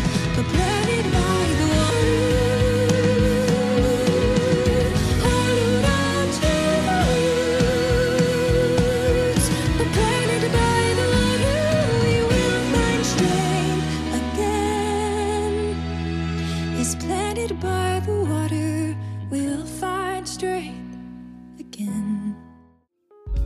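Orchestral music plays at full, dense volume for most of the passage, then thins to quieter sustained tones and fades away near the end.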